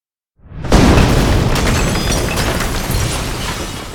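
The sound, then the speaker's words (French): A dynamite blast set off under a school wing bursts from silence into a deep, heavy boom. A sustained rumbling roar follows, flecked with crackling and snapping bursts of collapsing wood, glass and iron, slowly easing but staying loud. “L'explosion de la dynamite soulève les murs de l'aile d'environ 4 pieds avant de s'effondrer dans un cataclysme de destruction, de bois qui craque, de verre qui éclate et de fer qui se tord sous la pression.”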